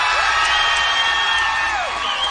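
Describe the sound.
An audience at the Slide Bar in Fullerton cheers and whoops for a singing contestant. The crowd noise is a steady, loud wall with shrill rising and falling shouts running through it.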